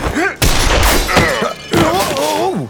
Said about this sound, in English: Quick as I was, I still felt some of the shotgun's blast on my leg as we fell.